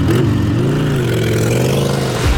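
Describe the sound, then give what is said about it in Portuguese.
A motorcycle engine passing, a loud, steady mid-pitched drone whose pitch wavers slightly before the sound cuts off abruptly. “quando a Band FM te ligar e você acertar quantas vezes a moto passou, ela é sua. Facinho, né? Mas atenção, a moto começa a passar.”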